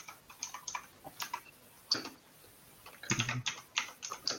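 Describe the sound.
Typing on a computer keyboard as a message is written, a quick, irregular run of many sharp, light clicks with short pauses between bursts, then a denser cluster of keystrokes near the end, fairly soft and with no talking.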